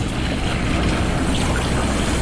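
Surf and waves washing against reefs, a steady, unbroken hiss of churning water with no distinct breaks, fairly loud throughout.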